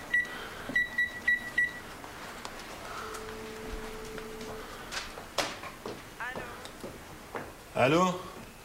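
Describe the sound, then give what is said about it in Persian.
A telephone number being dialed indoors opens with a few short, bright keypad beeps in quick succession. Quieter rustling and voices follow. “دوباره شماره می‌گیرد.”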